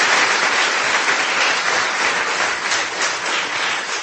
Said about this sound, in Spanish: Den un fuerte aplauso al Señor.